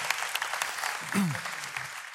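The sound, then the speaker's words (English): An audience applauds to welcome a couple onto a stage. Steady clapping fills the whole moment, and a voice speaks briefly over it. “Give them a hand.”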